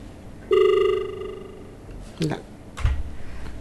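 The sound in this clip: A telephone ring tone on a listener call-in line with a faulty connection: one steady buzzing tone lasting about a second, followed by a couple of sharp clicks and a dull knock.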